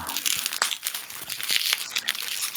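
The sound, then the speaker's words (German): Bubble wrap crumpled and crinkled while unpacking, giving a steady, dense crackling rustle with a few sharper pops, heard alone without talk. “Oh, schon wieder Knackfolie.”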